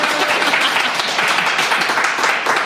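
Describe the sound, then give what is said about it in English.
A live audience at the Imagine Belfast Festival claps and cheers in a dense, continuous burst that holds a full, even level throughout. “I should say, a live, very biddable audience, yes, as you can hear, right?”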